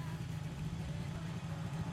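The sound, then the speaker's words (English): Steady droning motorbike engine from a video game, a mid-pitched, even hum that holds at one level throughout with no clear revving. “And also, these bikes are nothing like what a race, like, bike would sound like. That's why it's stupid.”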